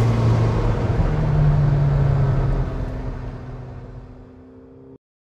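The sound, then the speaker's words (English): Engine of a borrowed car being driven on a tight, curving course: a loud, low rumbling roar that holds steady at first, then eases off through the second half before cutting off abruptly. “I'm still going to go easy because it's not my car and stuff. Yeah. But this thing almost takes off in the back whenever you accelerate.”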